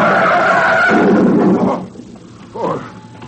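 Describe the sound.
A recklessly driven car skids, its tires giving a loud, rough screech for under two seconds that then drops away, followed by a shorter, fainter squeal.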